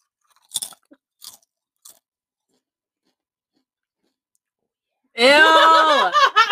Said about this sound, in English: Let's just say I'm eating chips, okay? You're eating chips. Some good chips. Can I do some ASMR real quick?